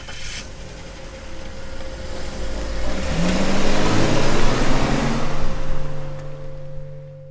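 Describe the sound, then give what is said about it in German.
A car engine revs as the car pulls away, a steady motor drone that swells louder toward the middle, then gradually fades. “Dann steigt sie ein und fährt los.”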